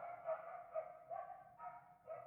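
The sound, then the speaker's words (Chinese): Dogs barking outside, a faint string of about five short barks at an uneven rhythm, with no other sounds. “人到一个新环境之后，这外面的狗真的很烦。 嗯， 等他们叫完吧。”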